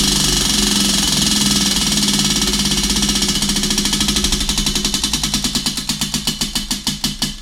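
A big prize wheel spun counterclockwise ticks rapidly, its clicks gradually slowing and spreading apart as it winds down, over a steady background hum.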